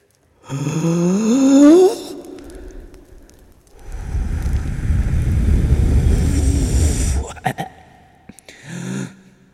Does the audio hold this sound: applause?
no

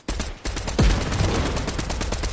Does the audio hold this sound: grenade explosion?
yes

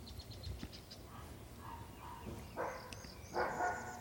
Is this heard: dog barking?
yes

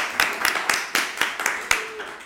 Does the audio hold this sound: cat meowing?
no

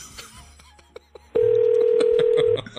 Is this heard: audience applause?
no

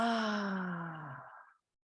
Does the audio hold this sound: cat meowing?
no

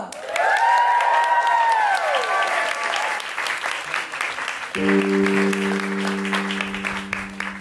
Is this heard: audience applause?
yes

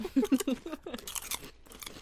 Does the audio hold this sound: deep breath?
no

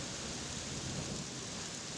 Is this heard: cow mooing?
no

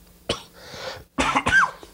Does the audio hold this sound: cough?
yes

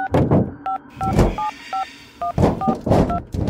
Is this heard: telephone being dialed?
yes

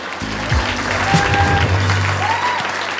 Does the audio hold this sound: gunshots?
no

